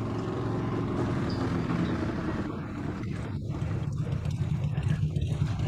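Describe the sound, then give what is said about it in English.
Motorcycles arriving: a continuous low, throaty engine rumble with a dense droning texture that holds steady for nearly six seconds, slightly rougher toward the end. “Those are motorcycles, folks.”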